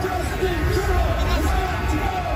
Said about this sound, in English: The Capitol's been overrun by cars, trucks, thousands of people screaming and honking.